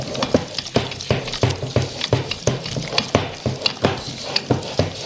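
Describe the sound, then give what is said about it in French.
A wire whisk stirs sugar into cake batter in a bowl. Quick, steady strokes make a rhythmic clatter of many sharp taps, evenly spaced, with no voices. “Donc là, nous allons pouvoir mettre le sucre avec la pâte. Et on retouille avec le fouet.”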